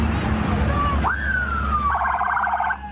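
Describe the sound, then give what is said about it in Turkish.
Sirens wail from decorated police vehicles setting off in convoy. A tone sweeps sharply upward, then slides slowly down before switching to a rapid pulsing warble that cuts off near the end. “Süslenen polis araçları peş peşe yola çıktı.”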